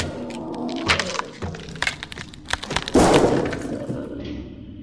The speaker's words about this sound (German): Scheißlicht. Du Riesenteddy musstest ja unbedingt die Lampe tranchieren.